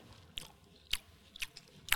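Someone eats watermelon as after-meal fruit, taking four faint, crisp, juicy crunching bites at roughly half-second intervals, with no talk.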